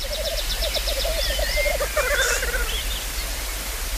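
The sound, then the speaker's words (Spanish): Male birds calling while displaying together at a lek: a steady chorus of rapid, pulsed low calls runs throughout, overlaid with higher trilling and squeaky notes. “Y los machos, pues como los urogallos, se reúnen en el lek, en grupos donde cada uno se exhibe para que las hembras vengan y elijan al mejor. Y eso es lo que estáis oyendo.”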